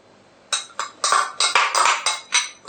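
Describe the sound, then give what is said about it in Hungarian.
Oil and finely diced onion going into a pan for frying, heard as a quick series of sharp, fairly loud clattering knocks against cookware. No talk. “Először beleöntjük az olajat, majd a vöröshagymát.”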